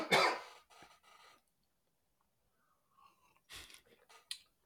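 A man gives one sharp, loud cough to clear something caught in his throat, followed by a few quieter breathy throat sounds after a brief silence.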